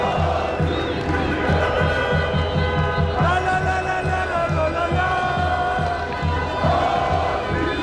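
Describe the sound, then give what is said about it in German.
Fans celebrate the Turkish national team's European Championship win on Berlin's Kurfürstendamm. A dense, unbroken roar of cheering and shouting voices carries over a steady rhythmic low pulsing, loud throughout. “Ja, so klang die Freude über den Sieg der türkischen Nationalmannschaft bei der EM am Mittwoch auf dem Kudamm.”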